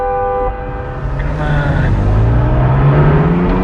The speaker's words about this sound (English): A white SUV brakes as they enter a tunnel. The SUV swerves slightly as Wheelman passes it.